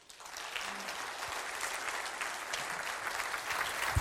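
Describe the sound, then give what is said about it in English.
Audience applause welcoming a speaker at a morning gathering: steady, dense clapping that carries on evenly for about four seconds at a fairly quiet level. “So would you do me a favor here this morning? Would you give a good Shadowbrook welcome to Mr.”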